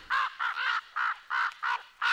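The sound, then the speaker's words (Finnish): A raven calls in a rapid run of harsh, hoarse caws, each short and evenly spaced, loud and alone against silence. “Kyllä Raamatussa korpista on myönteisiä kuvia, vaikka sitä pidetäänkin ja pidettiin Mooseksen lain mukaan saastaisena lintuna.”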